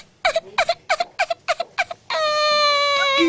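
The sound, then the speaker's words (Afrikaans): A cartoon character cries in a quick run of short, choppy sobbing bursts, then breaks into a long, sustained high-pitched wail, loud and without other voices. “hoekom huil jy?”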